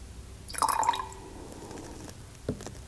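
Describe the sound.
A drop of water falls into a cup of grape juice with a small bright plink and a short ringing tail, followed a little later by one faint soft tap.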